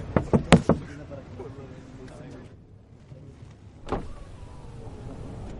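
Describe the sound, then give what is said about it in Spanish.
A man raps on the glass of a car window at night: a quick run of four sharp knocks, then after a pause a single further knock, over a low steady background. “Un hombre golpea el cristal de su ventanilla.”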